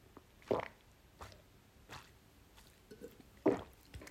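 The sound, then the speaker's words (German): Someone takes a drink: faint, wet sipping and swallowing sounds come in a few short, separate bursts over a quiet background. “Ich muss gleich mal was trinken und dann gehen wir noch mal weiter im Text.”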